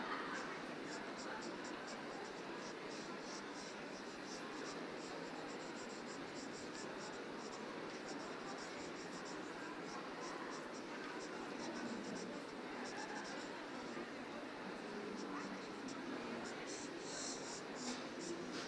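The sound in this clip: Faint, continuous scratching of a pen or pencil drawing an eye on paper, many quick light strokes rasping steadily throughout.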